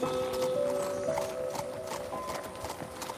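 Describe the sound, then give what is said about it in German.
Horses' hooves clip-clop at a walk at the end of a family horseback ride. Many steady hoof beats continue throughout over sustained tones, with no talking. “Schließlich neigt sich euer Familienausflug hoch zu Ross dem Ende zu.”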